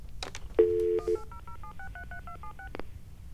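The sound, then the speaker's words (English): Telephone touch-tone dialing as a number is keyed in: a steady two-note beep, then a quick run of many short tones at shifting pitches, fairly quiet. “So let's dial the phone. 1-800 sod farm. SODFARM.”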